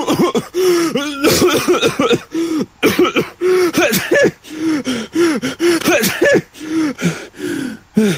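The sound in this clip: A person with flu coughs repeatedly, with many short, voiced, rough bursts and sharp gasping breaths in an uneven rhythm. The sounds are loud and continuous, with no other sounds.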